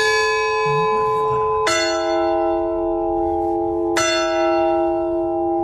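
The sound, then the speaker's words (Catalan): A new 60 kg bronze church bell, built in Holland, chimes the quarters and hours. It gives two clear strikes a few seconds apart, each a bright metallic clang with a long, rich, humming ring that slowly fades. “s'hi ha afegit una nova campana de bronze de 60 quilos construïda a Holanda. Aquesta campana s'afegeix a les que ja hi havia i ajudarà a fer aquests tocs renovats. Un altre exemple, els quarts i les hores, que ara sonaran així.”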